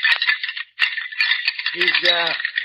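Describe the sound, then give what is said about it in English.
Dry, dense rattling of bones shakes on continuously, pausing briefly partway through, with a voice talking over the later part. “He's rattling bones.”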